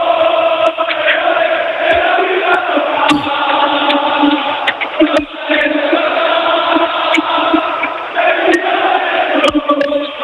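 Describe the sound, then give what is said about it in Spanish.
A roaring crowd of football fans in a stadium celebrating promotion to the top division after eight years while the players jump and celebrate, a dense, loud and continuous roar of massed voices with a few brief dips. “Y este es el sonido de la afición del Málaga, porque están todavía todos los jugadores aquí, saltando, celebrando que el Málaga jugara en Primera División 8 años después. Así suena la afición del Málaga.”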